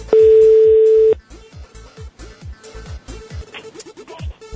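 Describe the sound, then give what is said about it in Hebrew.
A telephone number is dialed: a loud steady dial tone of about one second, then many quick short beeps and clicks in an uneven run. “הנה, מחייגים אל המספר שמופיע על המסך.”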